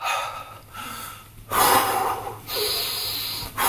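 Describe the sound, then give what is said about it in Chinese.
Loud, forceful breathing during a warm-up exercise: a few heavy, rushing breaths, each lasting about a second, with a quieter stretch between the first and the later ones. “我说你可以大声呼吸没有关系，你可以真的开始，”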